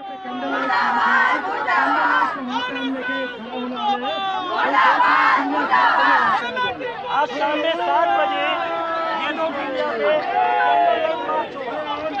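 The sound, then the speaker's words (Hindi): Protesters chant slogans against the BJP and the Modi government, many loud overlapping voices shouting together in a continuous, dense crowd roar with no pauses. “Modi सरकार के खिलाफ खास तौर पर जमकर नारेबाजी की जा रही है। बीजेपी मुर्दाबाद के नारे यहाँ पर लगाए जा रहे हैं।”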